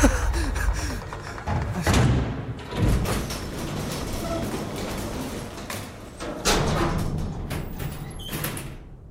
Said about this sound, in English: The code actually worked! Just took a second for the elevator!